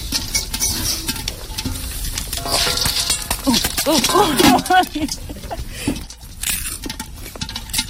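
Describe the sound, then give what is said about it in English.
Popcorn popping in a lidded pot over an open wood fire: many quick, irregular pops and light rattles against the metal, heard under people talking. “Wow, popcorn on a real fire. I think you should just take the lid off. No, guys, they're all gonna pop up.”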